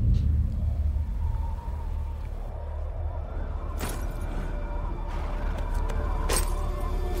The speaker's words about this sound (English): In any case, here is the trailer for the new Justice League.